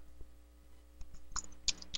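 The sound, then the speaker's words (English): Keystrokes on a computer keyboard: a few faint, irregular clicks and taps, scattered and sparse against a quiet background. “Whoops, I typed in the wrong thing here.”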